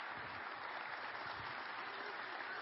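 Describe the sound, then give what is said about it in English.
A church audience applauds its pastor with faint, steady, even clapping that stays at one level throughout. “Let's hear it for Pastor Mike.”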